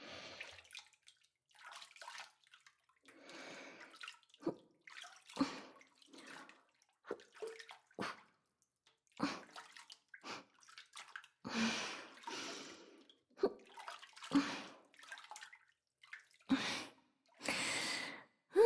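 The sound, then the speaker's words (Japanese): Gentle press-washing with water makes many soft, squishy, splashing bursts in an uneven rhythm. They are quiet throughout, with no talk. “まずはゆっくり優しく押し洗い。”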